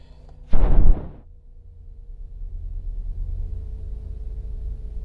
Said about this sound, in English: The sound you hear is me starting my car.